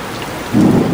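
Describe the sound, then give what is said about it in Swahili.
Heavy rain pours down on a home where water leaks in onto the bed, a dense, steady hiss that swells midway with a deeper rumbling surge. No voices are heard. “Nafika eneo hili najidai kuomba hifadhi kujikinga na mvua, japo nia yangu ni kuona hali halisi na kutafuta namna ya kumsaidia mama huyu. Mvua inaingia hadi kitandani anapojisitiri mama huyu.”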